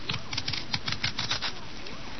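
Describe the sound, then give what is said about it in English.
A knife scraping the skin off potatoes over newspaper spread on the floor beside a bed, heard as many quick, even rasping strokes at a steady rhythm. “What are you doing, peeling potatoes right here next to my bed? I spread a newspaper on the floor, Father.”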